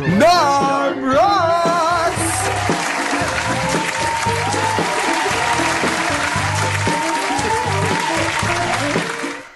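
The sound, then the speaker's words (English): Audience applause greets a host's introduction and runs as a steady, sustained wash of clapping for about eight seconds. A voice is heard briefly at the start, and the clapping fades out at the end. “put your hands together for the late morning program with your host,”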